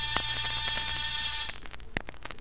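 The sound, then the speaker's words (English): An apartment door buzzer rings with a harsh, steady, raspy drone for about a second and a half, then cuts off, leaving faint background noise and a brief click. “I rang one buzzer.”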